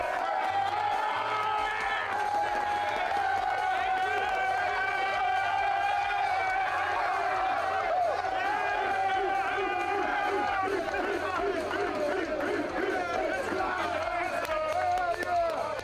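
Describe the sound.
Jacksonville Jaguars players cheer, whoop and shout together in their locker room after a win over the Colts. The dense, loud wall of overlapping voices holds steady throughout, with whoops rising above it.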